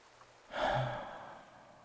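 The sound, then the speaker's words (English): A single slow, deep breath, soft and airy, swelling quickly and then fading out gradually over about a second. “Deep breaths for me. Just like this. Come on. Breathe with me.”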